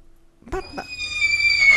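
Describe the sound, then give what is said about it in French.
A person imitates a horse's whinny while a Kazakh pony breed is discussed: a couple of breathy bursts, then a sustained, high, slightly wavering tone that grows louder toward the end, with no other voices. “Fais-nous un petit hennissement, s'il te plaît. Un hennissement.”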